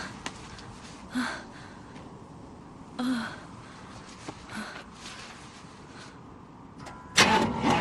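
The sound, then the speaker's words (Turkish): A car engine is started with the ignition key: a few short cranking bursts separated by quieter gaps, then a louder surge near the end. “Kontağa uzanabiliyor musun? Bir dene bakalım. Basılı tut, tamam mı?”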